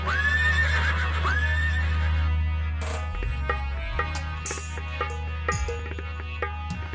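A lively, mischievous horse neighs twice in bright whinnies at the start over a steady low drone, followed by a run of sharp, clopping knocks.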